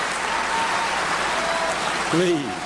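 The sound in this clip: An audience at the National Conference for Media Reform in Memphis, 2007, welcomes Bill Moyers with dense, steady applause throughout, and a voice briefly speaks over it near the end.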